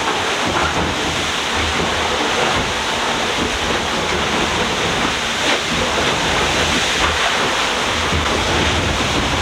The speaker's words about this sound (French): Donc c'est une vague qui passe par-dessus le pont.